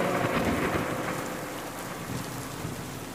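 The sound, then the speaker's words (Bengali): Heavy rain pours in a steady, loud hiss while thunder rumbles low beneath it, unbroken throughout with no voices. “বৃষ্টি আরো জোর আকাশ ফাটিয়ে নামল”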